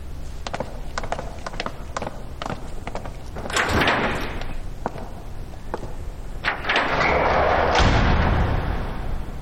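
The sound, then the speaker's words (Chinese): Lounge door being shut and locked, a series of sharp mechanical clicks and rattles with dull thuds, rising into a few louder scraping swells of metal movement. “你们两个去把休息室的门给我锁上”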